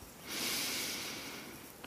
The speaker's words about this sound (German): Atme einmal tief durch die Nase ein